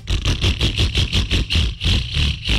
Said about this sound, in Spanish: Si su moto suena así,